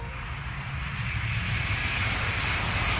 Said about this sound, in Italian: Lo senti, è un aereo che decolla? Sì, non atterra. Questo ecco, decolla.